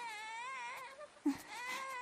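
A newborn baby cries in a sustained, wavering wail that catches briefly with a short sob midway before the crying carries on.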